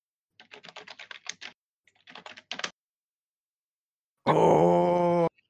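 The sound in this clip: Typing on a computer keyboard into a Discord chat: two quick bursts of rapid key clicks separated by a short pause, followed by a loud, sustained droning groan with a steady, buzzy tone that cuts off abruptly.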